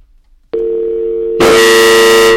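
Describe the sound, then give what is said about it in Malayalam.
Telephone dial tone after a call has disconnected: a short near-silence, then a steady loud tone that turns into a harsher, fuller buzzing tone partway through and holds to the end. “ആ call disconnect ആയിട്ടുണ്ടെന്ന് തോന്നുന്നു.”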